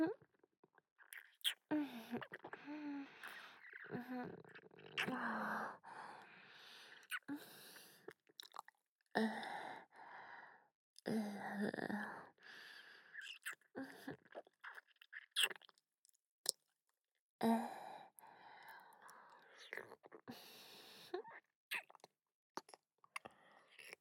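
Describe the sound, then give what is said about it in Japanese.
Close-up chewing and crunching of someone eating, with wet bites, squishy mouth sounds and brittle crunches in separate bursts between quiet pauses, mixed with soft whispering. “じゃあ、僕、いただきまーす。”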